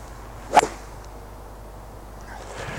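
A hybrid golf club strikes a ball with one sharp, crisp crack and a very short ringing tail, then only quiet background remains.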